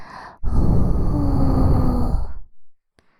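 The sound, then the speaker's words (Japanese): A long, steady breath is blown out in one continuous exhale lasting about two seconds, broad and airy, then fades off, followed by a short softer breath. “ふうするよ。”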